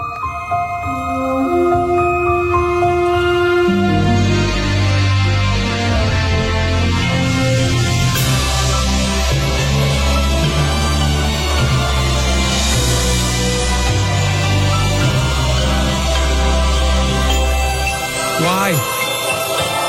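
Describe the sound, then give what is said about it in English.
Updated Disney film studio logo theme music, a sustained melodic piece with steady low bass notes under layered tones, continuous for about eighteen seconds before a final flourish. “the internet has gone into meltdown because they've updated the Disney theme. And it's going to sound like this from now on.”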